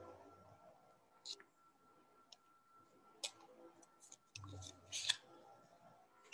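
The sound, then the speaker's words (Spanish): Faint, sparse clicks and soft sliding rustles as a card is drawn from a deck of cards during a card reading, with a few separate short snaps and a denser rustle near the end, without talk. “Te voy a sacar, Isa, ahora una carta de estas, de estas maravillosas cartas.”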